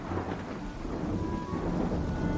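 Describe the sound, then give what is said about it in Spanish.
A thunderstorm rumbles with low rolling thunder over a steady hiss of heavy rain that keeps falling without a break, a dense, continuous wash of sound at moderate loudness. “una tormenta gruñona estuvo tronando y descargando lluvia sin parar durante una hora seguida.”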